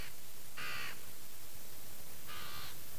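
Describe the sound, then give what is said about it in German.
Birds calling loudly on a hot day, two harsh, crow-like caws separated by a pause of over a second, each rising clearly above a constant loud hiss. “Heiß. Die Vögel sind so laut.”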